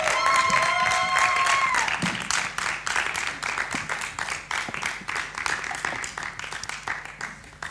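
A live audience in an auditorium applauds the evening's guests. Many hands clap loudly at first, then the applause thins into scattered, quieter claps that gradually fade.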